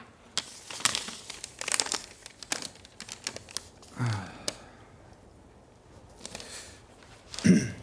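Paper rustles and crinkles as a letter is unfolded and handled in a courtroom. Many crisp, irregular crackles are scattered throughout, with a few louder rustling bursts.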